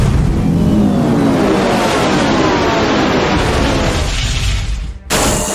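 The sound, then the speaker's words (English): A loud, sustained noisy blast rings out as an Audio Blast attack in a video game battle. It is a steady, dense roar lasting about five seconds, then it cuts off abruptly and is followed by a brief tail. “Full Hyper Tarbu used Audio Blast.”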